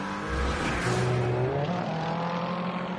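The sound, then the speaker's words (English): BMW and Corvette race cars battle on a racing circuit, their engines roaring continuously with shifting pitch as they drive on. “BMW on Corvette action. Again, a moment or two ago, the far side of the racing circuit.”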